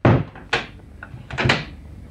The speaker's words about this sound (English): Okay, come in. I'll just lock the door again. I don't like people wandering in and out of the bar after hours.